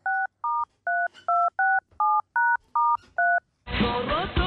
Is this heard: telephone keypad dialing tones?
yes